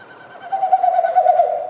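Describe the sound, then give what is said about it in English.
Winnowing of a Wilson's snipe in display flight, air rushing through stiff outer tail feathers as it flaps: a hollow, hooting hum that swells after a faint start and holds steady, alone, for under two seconds. “So each time they flap their wings, it pushes air through the stiff outer tail feathers, and it makes that woo woo woo woo woo kind of sound.”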